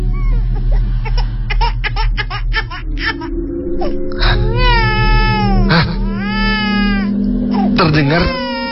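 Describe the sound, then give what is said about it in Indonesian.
A baby cries in loud, wavering wails that rise and fall in pitch, with several drawn-out cries after a stretch of busier, rhythmic background sound. “terdengar suara bayi lagi. Suara tersebut terdengar sangat dekat denganku.”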